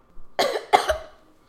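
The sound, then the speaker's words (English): Two harsh coughs from a person, close together and loud, followed by fading quiet. “You want to pause and get a drink of water? Because you're coughing.”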